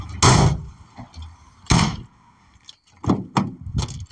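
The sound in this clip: Tailgate of an Isuzu D-Max pickup being closed: two heavy clunking bangs with a light knock between them, then a few quicker, lighter rattling knocks; no talk.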